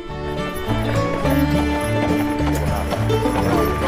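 Horse hooves clip-clop as a horse-drawn carriage rolls through the Arizona desert, a steady trotting rhythm under prominent tonal music.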